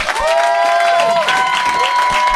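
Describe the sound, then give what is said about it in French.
Audience applause greets two performers introduced on stage at a French-language live show: dense, steady clapping with crowd noise holds loud and unbroken for the whole stretch. “Puis, mesdames et messieurs, applaudissez-les.”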